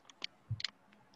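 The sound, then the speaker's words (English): A custom Xbox game controller gives a few quiet button clicks in an irregular pattern, with one soft low thump among them. “Here's the sound of the said controller.”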